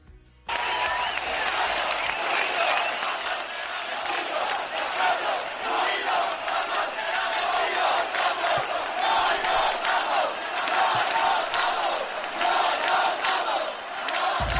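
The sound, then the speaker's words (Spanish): Crowds chanting at the 15 May 2011 protests in Spain, a massive wall of voices that bursts in abruptly after a short quiet start and keeps up a loud, rhythmic chant throughout. “El pueblo unido jamás será vencido. Este era el sonido hace 10 años, un 15 de mayo, como hoy, de 2011, Multitudes de personas,”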